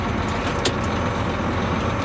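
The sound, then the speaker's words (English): A large Class 1 truck driving off, its engine giving a steady, loud low rumble that stays even throughout. “Okay, let's go for a little drive. Because you have to realize that when you're in a big vehicle like this, you can't be in a hurry.”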